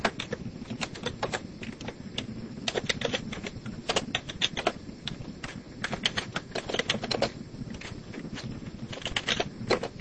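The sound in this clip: Rapid typing on a computer keyboard while working through a spreadsheet payment formula: many sharp, irregular keystroke clicks in quick bursts over a low steady background hum, with no voices.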